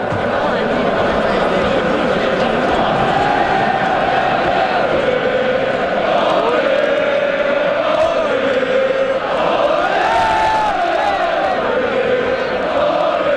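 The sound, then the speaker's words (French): Hockey fans chant outside the Bell Centre before a game, many loud voices joining in sustained, pitched chanting over a constant crowd roar that stays at full volume throughout. “On s'échauffe, oui, on fait nos vocalises de partisans. Le volume devient très élevé très vite, hein?”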